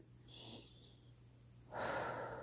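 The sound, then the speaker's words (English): Deep breathing during a relaxation exercise: a soft inhale through the nose, then a longer, stronger exhale through the mouth. Both are faint, over a steady low hum. “You can take a few deep breaths in through your nose and out through your mouth.”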